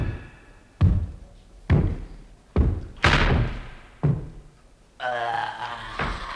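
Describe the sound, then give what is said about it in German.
A heavy castle gate being shut, heard as several deep, booming thuds at a slow, uneven pace, then a sustained grinding, creaking tone that ends in one more thud. “Zu spät. Er hat das Tor geschlossen.”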